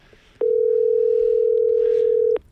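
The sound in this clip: A single loud, steady telephone ringback tone from an unanswered call, a pure mid-pitched beep lasting about two seconds that starts and stops abruptly over faint background hiss.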